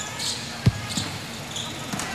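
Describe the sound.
A basketball is dribbled on the court during a game: one sharp thud, then a few fainter bounces, under commentary voices and arena noise.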